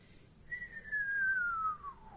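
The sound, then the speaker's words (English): A radio whistler from a lightning strike in New Zealand: a single clear whistling tone glides steadily downward in pitch for over a second, standing out above a constant soft hiss. “It's a descending whistling note. Starts with the high frequencies, ends up with the low frequencies. And that's caused by a lightning strike in New Zealand.”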